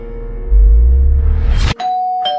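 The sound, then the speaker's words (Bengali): A doorbell rings in a home: after a loud rising whoosh cuts off abruptly, a sustained electronic chime follows, holding a bright, steady tone to the end. “Calling বেলটা বেজে উঠল হঠাৎ”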